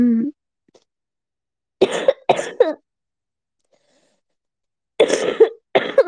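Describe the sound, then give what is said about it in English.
Coughing in two short bouts separated by silence, each made of a few harsh, breathy coughs, fairly loud and with nothing else around them. “Don't want to burst your eardrums, like coughing.”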